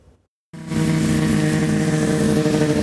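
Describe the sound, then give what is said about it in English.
Snowmobile engines racing at a charity poker run through a provincial park burst in abruptly after a brief hush, then hold a loud, steady, buzzing roar. “More than 100 snowmobilers racing through Greystokes Provincial Park from checkpoint to checkpoint for the Kelowna Snowmobile Club's annual poker run.”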